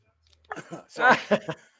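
A person coughs from a tickle in the throat, a few short, breathy bursts, the strongest and fullest one in the middle, followed by a couple of quicker, lighter coughs.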